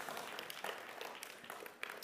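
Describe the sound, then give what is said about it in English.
Applause from a church audience after a group activity: a faint, steady patter of many hands clapping, with no clear breaks across its length. “Give yourselves a round of applause. Good job, everybody.”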